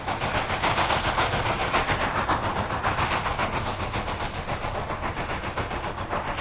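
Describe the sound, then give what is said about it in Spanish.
A locomotive rumbling along the rails, with a loud, steady clattering rhythm that holds unbroken for the whole stretch and no voices. “vamos a coger nuestra locomotora. La locomotora del rockabilly. Y nos vamos a Chicago.”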